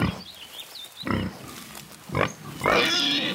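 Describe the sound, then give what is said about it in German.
Wild boar grunting at close range, a few loud, rough grunts and snorts separated by short pauses, with the last one longer and more drawn out. “So nah war ich einem Wildschwein noch nie.”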